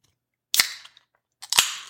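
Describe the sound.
An ice-cold can of Coors Light beer cracks open with a sharp metallic pop and a short fizzing hiss. A second crack and hiss follows about a second later.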